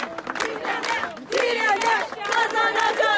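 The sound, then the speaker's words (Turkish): Villagers cheering and shouting together in the village square, celebrating a court ruling against a company. Many voices rise in loud, overlapping calls and chant-like shouts that swell after a brief dip. “Köylüler mahkemenin verdiği kararı köy meydanında kutladı.”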